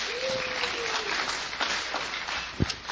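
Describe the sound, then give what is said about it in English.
An audience applauds a speaker at a church service with steady, dense clapping that holds at an even level for a few seconds. “Let's give Adam a hand. He has some announcements.”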